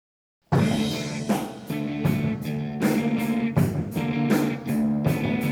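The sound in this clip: A rock recording starts after a brief silence and plays loudly: a heavy, majestic riff driven by strong, regular accented beats, with dense guitar and drums throughout.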